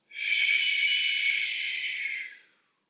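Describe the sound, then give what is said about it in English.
A long, slow exhale through the mouth during a guided breathing meditation: a single steady, breathy hiss that holds for about two seconds and then tails off quietly, with no other sounds. “Breathing in. And exhale through the mouth.”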